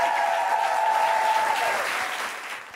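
Audience applause after a performer's set, a steady, dense wash of clapping heard alone that holds evenly and then tapers off toward the end.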